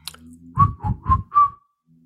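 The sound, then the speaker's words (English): A person whistles four short, clear notes in a steady rhythm at roughly the same pitch, each with a breathy onset, alone. “and then whistling is like”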